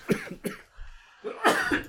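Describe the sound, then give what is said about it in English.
A person coughs a few times: short, throaty bursts in two clusters with a brief pause between them, fairly loud and with no other sound. “So I need to cough a second.”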